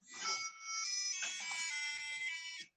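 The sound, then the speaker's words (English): A mobile phone ringing with a bright electronic ringtone of stacked high tones. It plays loud and nearly continuous, with a brief dip early on, then cuts off abruptly. “What's that noise? That's my phone.”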